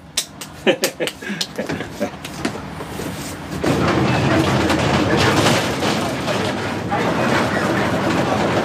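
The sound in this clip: A train departing: after a few short knocks, a loud, broad, steady rumbling roar begins abruptly and continues evenly to the end.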